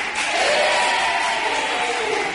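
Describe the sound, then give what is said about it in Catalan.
Schoolchildren applaud and cheer their classmates at a regional school radio event. The sound is a loud, sustained crowd roar with high young voices, holding a fairly even level. “Gràcies pels aplaudiments i els ànims dels companys.”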